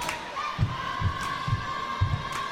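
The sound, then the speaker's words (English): A large crowd murmurs in a school gym before a basketball game, a constant hubbub of voices broken by a few dull, regular thuds. “Big crowd on hand here as you can hear it.”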